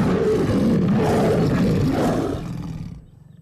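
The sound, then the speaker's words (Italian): A deep, loud animal roar at a zoo, sustained for about two seconds before trailing off into a fainter, rough growl. “E allora, dopo questo ruggito”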